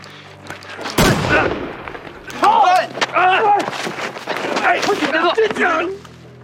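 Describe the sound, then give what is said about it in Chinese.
A single sharp gunshot cracks out during a tense armed standoff, a loud, abrupt bang with a brief ringing decay. Agitated shouting voices follow at once. “你他娘的真开枪！”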